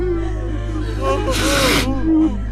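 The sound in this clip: A child cries with wavering, sobbing wails and a sharp, gasping breath in the middle, over a steady low hum.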